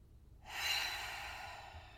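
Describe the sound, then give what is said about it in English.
A person takes a deep, slow breath in, a soft, faint airy rush that starts after a short silence and carries on to the end. “And then I just want you to breathe in and hold it for a minute and then breathe out.”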